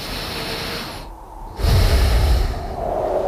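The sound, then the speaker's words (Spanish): A deep breath taken to gather strength comes as a loud, rushing burst of air with a heavy low-end surge midway, set against a continuous noisy background. “Voy a respirar para coger fuerzas para mañana”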